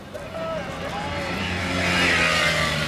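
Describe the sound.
A car drives up with a low engine rumble and a tonal hum that grows steadily louder and fuller toward the end.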